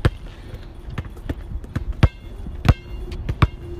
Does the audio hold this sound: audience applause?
no

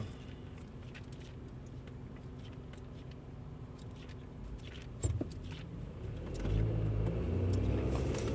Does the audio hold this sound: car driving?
yes

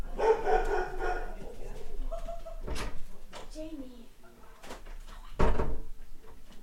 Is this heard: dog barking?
yes

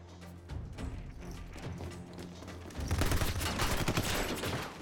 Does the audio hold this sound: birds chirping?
no

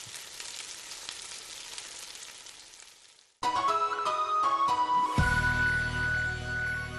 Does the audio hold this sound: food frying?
yes

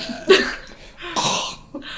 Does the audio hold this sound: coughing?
yes

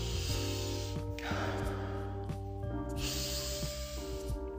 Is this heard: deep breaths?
yes

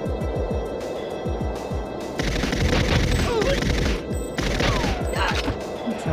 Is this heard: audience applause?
no

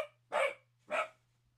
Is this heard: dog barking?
yes

